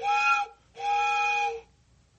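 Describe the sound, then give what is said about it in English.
An old train whistle is blown in two sustained blasts, the second longer. It has a steady, reedy, chord-like pitch and falls silent after the second blast. “Hey, is that what I think it is? Is that my old train whistle?”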